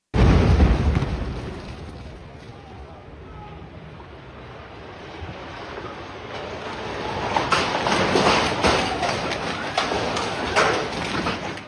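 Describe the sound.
An explosion from an attack on a building in Gaza City, a heavy boom at the start followed by a long, broad rumbling roar that eases and then swells again.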